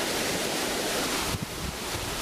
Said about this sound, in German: Kann es sein, dass es windig ist?